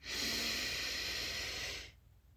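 A deep breath drawn in during a guided breathing exercise: one long, steady, hissing inhale lasting almost two seconds that cuts off abruptly into quiet.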